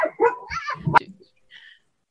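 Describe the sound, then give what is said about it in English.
A dog barks and whines in a quick, loud cluster of yelps lasting about a second as it chases something, then quiet follows. “So my apologies for the dog interruption.”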